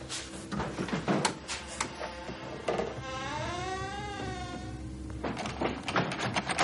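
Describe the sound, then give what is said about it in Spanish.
A door pushed open against a fallen refrigerator in a cellar: a series of dull knocks, thuds and scraping bumps, busy at the start and end with a quieter stretch in the middle. “Entonces va hacia la bodega y empuja la puerta hasta que consiga apartar el frigorífico tumbado.”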